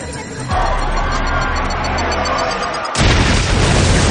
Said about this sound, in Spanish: la bomba bajo la tarima también explota.